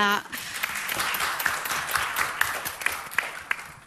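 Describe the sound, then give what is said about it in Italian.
Applause from an audience at a civic event day, giving an opening round of clapping: a dense, steady wash of many hands with sharp claps poking through, sustained at an even level throughout. “Qui io penso che possiamo fare un iniziale applauso”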